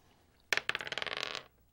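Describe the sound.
A twenty-sided die rolls across a table during a tabletop role-playing game: a sharp first strike, then a rapid run of many small, bright clattering bounces that ends after about a second, with no talk.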